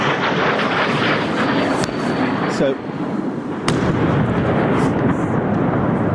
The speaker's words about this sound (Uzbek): Киевта ракета портлашы BBC жанлы эфирге түшіп қалды.